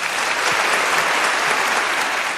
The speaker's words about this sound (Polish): wszyscy powinni dostać jednakowe brawa.